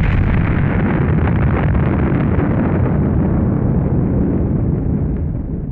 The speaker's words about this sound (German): Ja, also wir hatten eine Explosion in der Show.